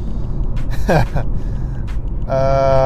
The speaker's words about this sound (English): this traffic here, SoCal traffic